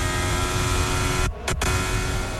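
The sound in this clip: Onboard engine sound of a 2026 Formula 1 car in practice at the Belgian Grand Prix circuit, a steady loud high-pitched whine with a brief cut and drop-out about halfway through, no talk.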